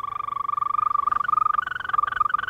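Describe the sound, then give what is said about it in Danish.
A European green toad calling: a continuous, high-pitched musical trill of fast, even pulses, clear and steady, heard alone. “Københavns næste metrolinje M5 skal gå gennem et område, hvor den truede, grønbroede tudse tidligere er blevet spottet. Den lyder sådan her.”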